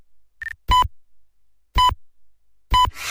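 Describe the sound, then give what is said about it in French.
Radio time-signal pips announce the hour: a short higher beep, then three loud, clear tonal pips spaced about a second apart, each sharp and brief against silence. “Quatrième top, il sera 4 heures.”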